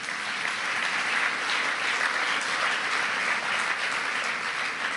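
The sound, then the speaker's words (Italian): Audience applause in a hall: a dense, steady wash of many hands clapping that holds an even level throughout, with no voices heard. “fate un applauso anche a Mauro”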